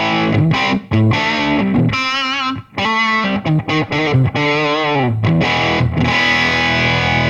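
Distorted electric guitar played on a humbucker pickup through a small Marshall tube combo amp, loud and saturated, with short melodic phrases and sustained notes broken by brief gaps and pauses.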